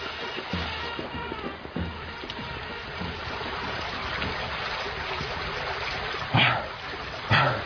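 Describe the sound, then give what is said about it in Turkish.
Water splashes as people swim toward the shore in a radio drama, a steady trickling wash topped by two louder splashes near the end. “Hadi koçum, biraz daha gayret et. Bak kıyı yakın, oraya doğru yüzeceğiz.”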